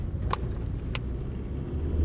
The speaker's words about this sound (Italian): Ci mettiamo il volante sulle strade semideserte per seguire una pattuglia di polizia durante il suo giro in città.